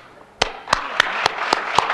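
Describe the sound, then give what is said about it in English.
Church audience clapping hands in a steady rhythm: six sharp, evenly spaced claps about a quarter second apart, each crisp and bright, starting after a brief quiet moment. “It's bad to have to always get the people to clap their hands, you know, when they could do it on their own.”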